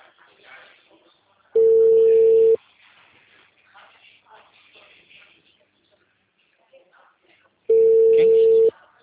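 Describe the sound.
A telephone call rings while the lines are busy, with two long steady tones about a second each and several seconds apart. Faint rustling and murmur fill the gaps between them.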